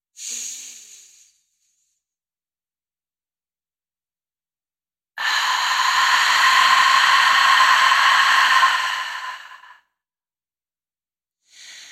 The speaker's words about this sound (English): So let's inhale.